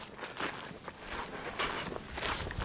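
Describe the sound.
Footsteps walk along a freshly mown grass path beside a tree line, a steady run of soft, faint footfalls with no talk over them.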